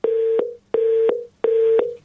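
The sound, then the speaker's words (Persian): Three identical beeps follow a telephone call being cut off. Each steady mid-pitched tone lasts about half a second and starts and ends with a faint click, and the beeps are evenly spaced with short silences between them. “خب تلفنشان قطع شد.”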